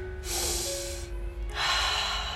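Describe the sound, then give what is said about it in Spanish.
Deep breaths drawn through the nose during a guided breathing exercise: two long, airy, rushing breath sounds, the first lasting about a second, the second following a short pause. “En este momento empiezas a respirar profundo, inhalando por la nariz”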